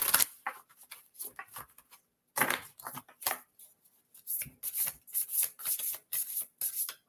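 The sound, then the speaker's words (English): A card deck being shuffled and a card pulled from it: soft, papery rubbing and riffling in many short, irregular bursts separated by brief quiet gaps. “I'll pull a card for each of you.”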